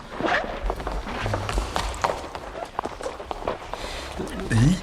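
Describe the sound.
Footsteps of a small group of people walking through a museum: an irregular patter of soft thuds and taps that continues under people talking.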